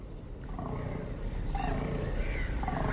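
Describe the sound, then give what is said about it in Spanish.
A rutting male deer bellows in one long, continuous, rough low roar that holds steady and fairly loud throughout, with no other sounds. “Está en pleno celo. El macho se pavonea, berrea”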